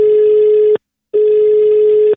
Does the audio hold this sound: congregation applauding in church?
no